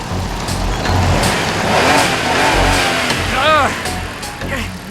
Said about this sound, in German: Der Pickup kam Tim so nah, dass er fast die Kontrolle über sein Fahrrad verlor.